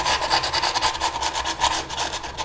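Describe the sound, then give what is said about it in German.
Sandpaper rubbed by hand over a rough spot on wood makes a loud, steady rasping scrub in quick back-and-forth strokes that runs continuously throughout. “Ja, ich habe kurz geschliffen”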